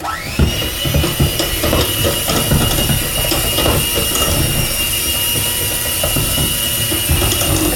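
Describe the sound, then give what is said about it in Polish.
An electric mixer strains as it beats thick dough: the motor whirs up at the start, then holds a loud, high steady whine under an irregular grinding rattle. “Widać, że się mikser męczy, więc im ciasto gęstsze, tym kolejne miksowania możemy zaczynać od wyższych obrotów, żeby po prostu miksera nie spalić.”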